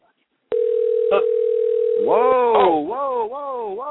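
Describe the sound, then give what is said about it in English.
A telephone dial tone starts abruptly from silence and holds steady and loud for nearly two seconds before a voice begins speaking over its end. “Whoa. We're calling somebody.”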